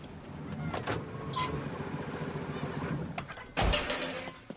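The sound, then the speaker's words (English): A van returning and parking outside an apartment block after dark: a steady vehicle rumble runs throughout, with a sharper, louder thump near the end. “It's dark when Dog Van returns and parks outside the apartment block.”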